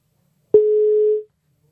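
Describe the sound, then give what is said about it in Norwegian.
A telephone ringback tone sounds as a call is placed: a soft click, then one steady mid-pitched beep lasting under a second, alone in silence. “Da skal jeg ta og ringe til Kari Gaulin.”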